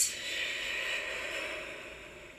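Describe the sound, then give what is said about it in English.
A deep breath taken during a guided meditation: a long, steady airy rush of breathing held through the whole stretch, easing slightly toward the end. “So, you breathe in and breathe out.”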